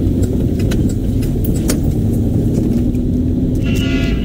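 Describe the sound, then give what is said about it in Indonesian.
A car engine idles in a stop-and-go traffic jam, giving a loud, steady low rumble that holds constant throughout, with faint higher ticks above it. “Saat macet, kondisi berhenti jalan, mesin mobilmu bekerja sangat berat dalam suhu yang tinggi.”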